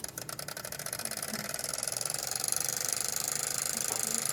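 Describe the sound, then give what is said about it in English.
A small flywheel engine spins up and runs, giving a fast, steady mechanical chatter of rapid even pulses that grows slightly louder partway through and then holds. “Flywheels to keep it going in between cycles, right? Mm-hmm. And if it's warm and we give it a spin, it should take off, shouldn't it?”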